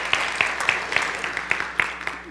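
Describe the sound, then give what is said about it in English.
Congregation clapping at a church service, a steady run of evenly spaced, crisp claps in a regular rhythm over a soft bed of noise. “So let's applaud this glorious day.”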